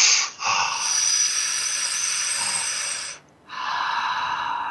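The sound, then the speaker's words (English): A breath drawn in with a loud hiss across the teeth for about three seconds, then, after a short pause, let go in a second rushing, breathy hiss; no voices. “Drawing the air across your teeth and then letting go. Just letting go.”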